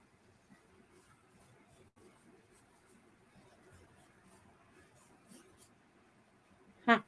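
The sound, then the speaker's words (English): A name is written by hand with a pen, giving faint, soft scratching strokes that come and go irregularly across the whole stretch, with one louder brief sound at the very end. “let me write your name, Robert, so I can tap into your energy.”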